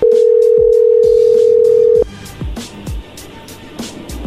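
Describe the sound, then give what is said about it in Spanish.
A steady, loud telephone dial tone holds for about two seconds and then cuts off as a call is dialed again. Irregular sharp clicks and short tones follow. “y se está marcando de nuevo.”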